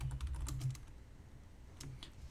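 Faint keyboard typing as a git checkout command is entered on a computer: a quick cluster of soft keystrokes, a pause, then a few more taps.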